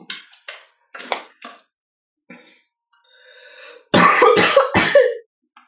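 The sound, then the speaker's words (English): A person coughs in a series of sharp, throaty bursts: a few short ones early on, then a louder, longer fit near the end, with quiet gaps between and no speech. “I'm sorry. I had the cough.”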